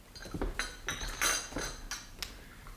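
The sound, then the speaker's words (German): Glasses and cups are cleared away: a quiet, irregular series of many light clinks and chinks of glass and crockery. “räum die Gläser weg und die Tassen.”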